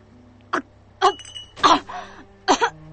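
Coughing from someone who choked on somen noodles: a few short, harsh coughs spaced irregularly apart, the later ones coming in quick double bursts, with no talk.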